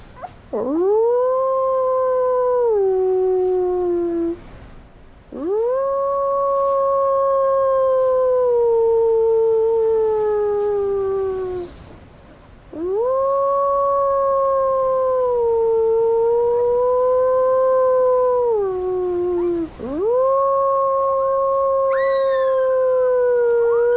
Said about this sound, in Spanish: Los lobos jóvenes aullan de la misma manera que los adultos,